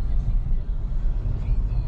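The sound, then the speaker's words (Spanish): Steady low engine and road rumble from a new Nissan Kicks driving around Monterrey, a continuous, fairly loud drone with no distinct separate events. “ya dando la vuelta por Monterrey en el nuevo Nissan Kicks, le voy a meter un poquito la pata.”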